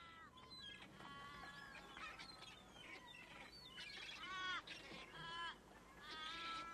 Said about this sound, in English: Good use of seagulls there. With a few crows mixed in.